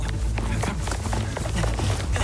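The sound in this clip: Running footsteps: many rapid, regular thumping steps over a dense, noisy background, moderately loud throughout.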